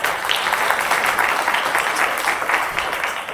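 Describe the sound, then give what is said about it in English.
Audience applause welcomes a guest onto the stage at a business school event, a dense, even patter of many clapping hands, held at a steady loudness for a few seconds. “Please help me welcome Mr. Ken Webster.”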